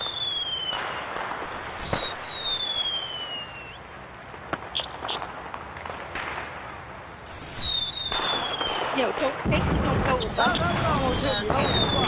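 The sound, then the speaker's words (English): A fireworks sound effect added to a recording: falling whistles, many sharp bangs and crackling pops, growing denser and louder toward the end. “Should I give fireworks? Please. You want fireworks? Yes, please. Sure, let's add some fireworks to it.”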